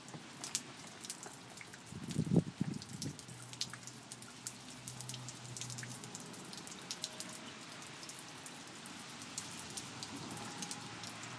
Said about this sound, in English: I'll just let the rain do its thing. This is the sound of Anaheim, California rain.